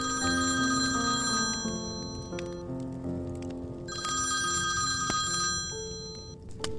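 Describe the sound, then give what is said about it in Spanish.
A telephone rings in a quiet family home, giving two loud, bright bell-like bursts with a brief gap between them and no speech. “el doctor Miguel hacía justo antes de que una llamada rompiera con esa tranquilidad”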